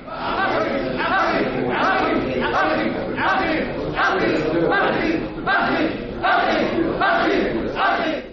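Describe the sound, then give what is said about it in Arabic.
A stage play crowd of hungry people advancing with clenched fists, shouting in many rhythmic, repeated bursts like a battle cry, with a murmur of voices filling the gaps between. “الصيحة تتكرر كأنها نار تتأجج وهمهمة تفيض من الجماهير، وهي تتقدم بالقبضات المضمومة وصيحات هي صيحات الجياع”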